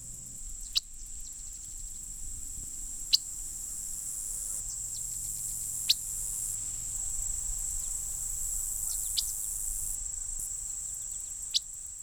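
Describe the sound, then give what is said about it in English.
Sharp, isolated chip notes from birds in autumn grassland, a handful of brief ticks spaced several seconds apart over a steady, high insect drone like crickets. “Mostly we hear chip notes like those in the following recording.”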